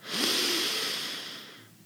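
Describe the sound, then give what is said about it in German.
A single breath drawn in through the nose, a loud airy hiss that starts strongly and fades away over a couple of seconds, heard alone without any voice. “wir atmen gemeinsam durch die Nase ein”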